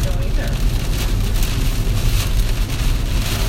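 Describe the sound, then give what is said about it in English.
A heavy rainstorm pours in sheets, making a dense, steady hiss of rain with wind buffeting the microphone, loud and unbroken for the whole clip. “So it's a pretty good storm. My eyes. Sheets of rain.”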